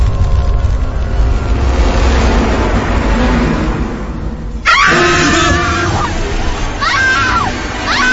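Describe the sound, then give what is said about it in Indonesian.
A woman screams loudly and shrilly, breaking in after several seconds of steady, rumbling noise. Her piercing, wavering cries rise and fall over the noise. “tepat di telingaku terdengar suara teriakan perempuan yang sangat keras hingga melengking ke telingaku.”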